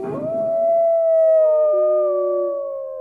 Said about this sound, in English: all across the valley, more and more werewolf howls send up into the sky until the entire, valley is filled with the howling of hundreds of wolves